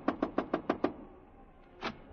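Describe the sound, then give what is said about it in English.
Knocking on a hotel room door: six sharp, evenly spaced raps in quick succession, fairly loud and alone, with no voices. “I stopped in front of room 300 and knocked.”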